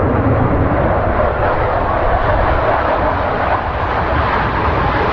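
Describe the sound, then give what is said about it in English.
Loud, steady jet roar from fighter jets taking off and landing around NASA Langley Research Center in Hampton, Virginia. The broad rushing noise holds at an even level throughout, with no voices. “Although the fighter jets are taking off and landing all around her, Susanna Calhoun”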